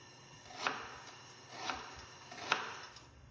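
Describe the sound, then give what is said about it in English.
Knife chopping a yellow onion on a cutting board after its outer skin is peeled off: three soft, separate chops, evenly spaced and faint, over a quiet background. “the recipe is calling once again for 3/4 of a cup of yellow onion. Take the outside skin off.”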